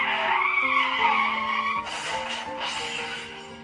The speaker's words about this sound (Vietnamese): Trong lúc bất ngờ, một chiếc xe tải chạy vụt qua thắng gấp.